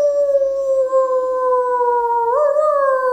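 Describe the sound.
A woman's voice imitates a wolf howl for Halloween: one long, sustained tone that slides slowly downward, with a brief wavering lift near the end, loud and alone.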